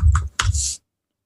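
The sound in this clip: Typing on a computer keyboard gives two short bursts of quick clicks close together, then silence.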